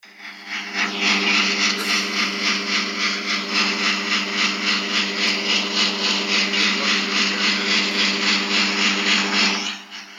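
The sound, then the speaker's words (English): A heat pump condensing unit outside a window, recorded from about 8 feet, gives off a loud, steady drone. A low tonal hum sits under a fan whoosh that pulses rhythmically, and the drone holds level before dropping off at the end. “There was a heat pump just outside one of the windows. And obviously it's a big, big topic. So I decided to record the noise from the heat pump. So have a listen.”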